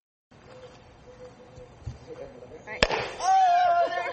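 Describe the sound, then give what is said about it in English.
A single sharp pop as a sealed container of water and effervescent tablets bursts from built-up pressure in a rocket-launch experiment, preceded by quiet rustling and followed by a hissing rush. “A simple experiment replicates how a rocket blasts off. You put the tablets in there, and then you close it, and when the water mixes with the tablets, it creates pressure.”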